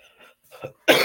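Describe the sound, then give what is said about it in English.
A person who is choking coughs once, loudly and harshly, after a few faint, breathy throat sounds. “Why am I getting choking? Oops.”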